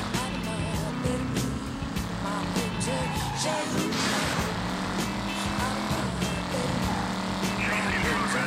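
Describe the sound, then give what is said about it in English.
Racing car engine in a video game race, a steady, loud, dense drone with layered harmonics that holds throughout without clear gear changes. “Oh god, I got a fucking cop on me during a race, really? Too bad this car's just hauling.”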